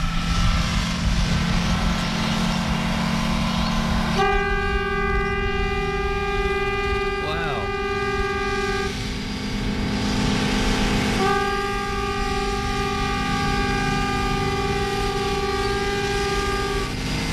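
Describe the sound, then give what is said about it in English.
A train horn sounds in two long, sustained blasts over the steady low rumble of the moving train, with a short gap between them. “Now, as you know, this is a, well, this is the sound of a train.”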